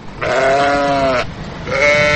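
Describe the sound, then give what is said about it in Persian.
Two loud bleats from a domestic sheep kept in a zoo cage: a long wavering call, then after a short pause a second bleat that is cut off. “این قفس همونطوری که میبینین از گوسفند هست. گوسفند؟”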